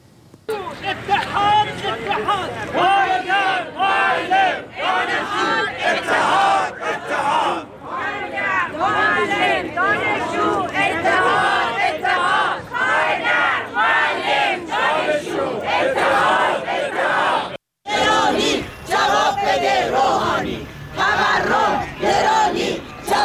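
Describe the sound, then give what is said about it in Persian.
Teachers at a rally in Alborz and Kermanshah protesting their living conditions chant slogans as a loud crowd, with rhythmic bursts of many voices and a short break near the end. “گروهی از فرهنگیان استان البرز و کرمانشاه هم این هفته در اعتراض به وضع موجود و وضعیت معیشتی خودشون دست به تجمع اعتراضی زدند که صحنه هایی از این تجمعات رو با هم میبینیم و میشنویم.”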